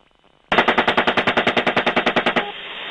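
Gunfire from a helicopter-mounted gun: one loud, rapid burst of evenly spaced shots lasting about two seconds, set against a low steady hum before and after.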